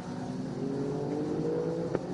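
A racing car drives on a track with a loud, continuous engine drone and a dense low buzz throughout. The drone stays fairly steady and no voices are heard.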